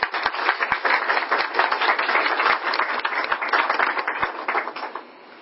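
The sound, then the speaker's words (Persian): Audience applause at an academic gathering on Persian literature: dense, loud, sustained clapping from many people that stops abruptly just before the end. “تشویق بفرمایید.”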